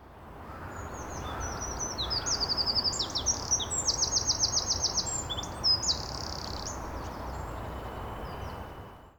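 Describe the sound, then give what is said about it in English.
A wren sings rapid high trills and chattering notes for several seconds over a steady low background hiss. “the fast trill is the one I can lock into. Yeah. And it's when I hear that I think, oh, I'm listening to a wren. Yeah. Let's hear the whole piece of wren song then.”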